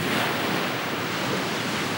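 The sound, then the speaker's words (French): Sea waves breaking on the shore, a continuous rushing roar of surf with a low rumbling undertone that stays steady and unbroken. “Et bientôt, il vit dans le loin la mer. Il s'arrêta. Il l'entendait battre sur le rivage et gronder au fond de l'horizon.”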